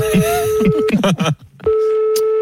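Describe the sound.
A telephone call is placed, with a steady electronic phone tone that cuts out briefly and then resumes, and voice-like sounds overlapping its first part.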